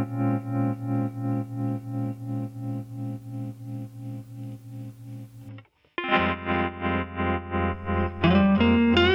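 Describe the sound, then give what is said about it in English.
Distorted electric guitars played through a tremolo effect: a sustained chord throbs in a steady pulsing rhythm, breaks off into a brief silence, then returns as another throbbing chord. A higher lead guitar line enters near the end. “There's that tremolo sound again.”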